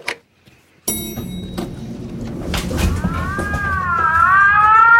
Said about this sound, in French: C'est quoi ça? L'alarme incendie? Ah ben non, évidemment, c'est une sirène.